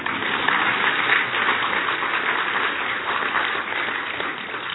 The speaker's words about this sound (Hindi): अभी तो ताली बजाओ ना।